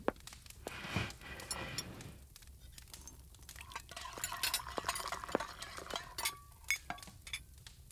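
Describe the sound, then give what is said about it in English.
Dishes and cutlery clinking as a table is set, with scattered light clatter and several sharper metallic and ceramic clinks, more frequent toward the end. “For now, can you set the table? Got it.”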